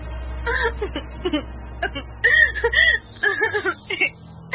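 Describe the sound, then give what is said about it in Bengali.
A person cries in short, halting whimpers and sobs, with broken high-pitched bursts and catching breaths separated by brief pauses. “এই চুপ কর, দেখি কাঁদতে বসিস না তো প্রাইমারি স্কুলের বাচ্চাদের মতো।”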